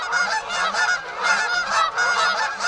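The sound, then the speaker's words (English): Geese honking in a dense, overlapping chorus of loud, nasal calls that pulse continuously from start to finish, with no voices over them. “the cacophony of honks and flaps and squawks coming from every direction”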